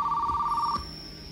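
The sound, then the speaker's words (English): A telephone rings with a steady, clear tone for under a second, then cuts off and leaves a faint background. “The Undersecretary answers the phone.”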